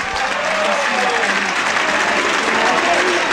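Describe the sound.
A stadium crowd at the Del Duca applauds Ascoli's number 25, Andrea Rizzo Pinna, as he is substituted off the football pitch: sustained, even clapping from many hands with a voice talking over it.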